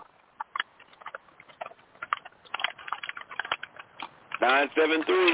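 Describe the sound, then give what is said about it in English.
Typewriter keys clacking over an open phone line, a thin, narrow-band string of irregular keystrokes at moderate volume, followed near the end by a man's voice. “Man, somebody on a typewriter or some goddamn shit, man. Who the hell is using a typewriter?”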